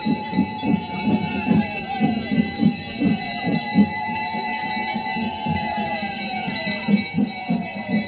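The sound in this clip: Bells ring during a Hindu aarti worship ritual in a dense, sustained metallic ringing, with steady rhythmic low pulses beneath it throughout.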